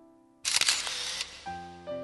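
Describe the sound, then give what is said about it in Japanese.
Single-lens reflex camera shutter firing in one short, crisp, noisy burst of clicks, set between steady soft tones that play before and after it. “シャッターの音に彼らは一瞬ビクッとなったけれど、その場動かない。”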